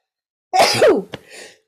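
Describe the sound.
A single loud, sharp sneeze bursts out, followed by a quick click and a soft, breathy tail.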